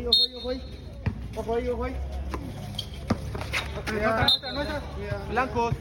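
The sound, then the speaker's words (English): Basketball thumps from a floodlit men's game on an outdoor court beside Central America's oldest church, dating to 1524. A few sharp bounces and thuds punctuate crowd hubbub and court chatter, with a man talking over them. “And in the shadow of one of the most historic buildings in this continent, there is, of course, a basketball court.”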